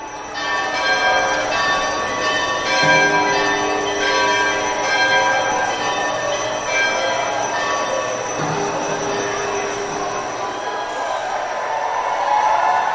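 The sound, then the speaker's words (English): A 250-pound cast iron bell rings with a chorus of small handheld bells, shaken by museum visitors and staff in farewell to an old space, making a dense, sustained wash of overlapping metallic tones that stays steady and fairly loud throughout. “Brenda's bell was accompanied by a chorus of small handheld bells rung by Exploratorium visitors and staff, a way of saying goodbye to the old space.”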